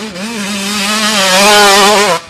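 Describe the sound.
Dirt bike engine revving in one sustained, buzzing rev that holds a fairly steady pitch with a slight waver, loud throughout and cutting off sharply at the end, with no voices.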